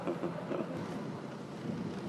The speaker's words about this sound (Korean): 일주일에 두 번뿐인 여객선 대신에 낚싯배를 타고 갑니다.